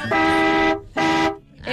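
The horn of a buseta, a small bus, honks twice in loud, steady toots, and a third toot starts right at the end.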